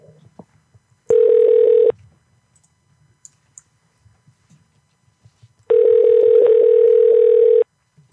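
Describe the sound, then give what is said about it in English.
Telephone tones from a call placed through an internet calling service: two steady, mid-pitched tone bursts, one short and one longer, with faint clicks in the quiet gap between them. “if we want to dial Hawaii, we're going to have to do Google Voice”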